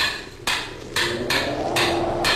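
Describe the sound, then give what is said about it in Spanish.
A hammer strikes a stuck metal bolt in a few sharp, ringing blows with pauses between them, over a faint low hum. “Si este perno se resiste todavía, lo haré saltar de una vez de un martillazo.”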